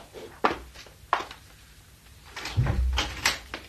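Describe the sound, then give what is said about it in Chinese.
A door being opened: two sharp, separate clunks, then a lower, rougher stretch of shuffling knocks that grows slightly louder toward the end. “开门，俾呢位不速之客出去。”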